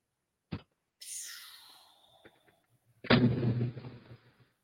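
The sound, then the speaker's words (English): An explosion that created a large fireball, recorded on a doorbell security camera: a sharp pop, then a long hiss that falls in pitch, then a loud, rumbling blast that fades out. “This is video from somebody's Ring camera. The explosion created a fireball.”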